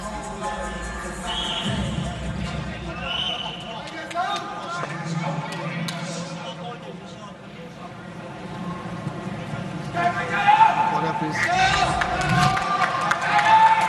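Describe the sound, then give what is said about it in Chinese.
Crowd cheering and chanting for Tang Kai at a fight venue during his bout with Gasanov, a dense, steady roar that swells louder toward the end while commentators talk over it. “现场响起了加油声。 是的，看来有许多的中国全民来到现场为唐凯加油。”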